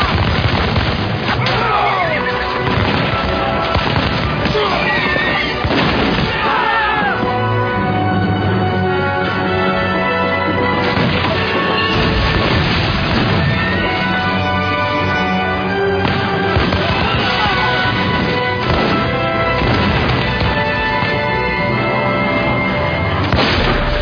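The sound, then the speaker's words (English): A rifle volley is fired on command, then many loud booming gunshots and blasts follow one after another over a dense, roaring backdrop for the whole stretch. “Take aim! Fire!”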